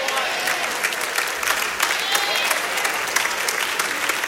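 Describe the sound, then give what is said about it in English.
An audience answers a speaker's call to make some noise with loud clapping and cheering voices. Sharp individual claps stand out above a steady, energetic roar that carries on throughout. “Come on, make a little noise if you get the concept.”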